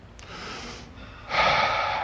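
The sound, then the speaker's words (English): A deep breath taken alone: a softer airy inhale, a brief pause, then a louder, fuller breathy exhale. “Take a deep breath.”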